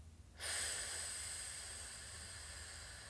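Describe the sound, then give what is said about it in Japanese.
A slow exhale during a relaxation breathing exercise starts abruptly as a soft, even breathy hiss and carries on steadily for about three seconds, easing off slightly toward the end. “ではゆっくり吐いていきます”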